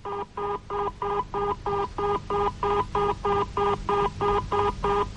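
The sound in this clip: Telephone tone beeps as an operator places a call to a Murray Hill 4-0-0-98 number: a long, evenly spaced run of identical short tones, loud and steady, with no voices.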